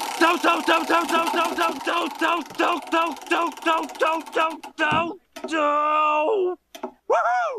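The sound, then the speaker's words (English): A prize wheel spinning: a long run of rapid, evenly repeated tonal clicks, followed by a few sustained warbling electronic tones. “Alrighty, let's give that wheel another spin to find out which episode we're watching.”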